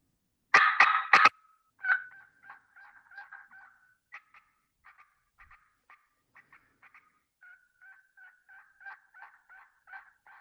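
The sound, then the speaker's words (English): A hand-operated turkey call imitates a turkey, opening with a few loud, sharp popping cut notes, then a long run of shorter, softer yelp notes in a slower, steady rhythm. “If you're going to cut and then yelp, then you have to produce those popping notes and then drag the note out to create the yelp, like so.”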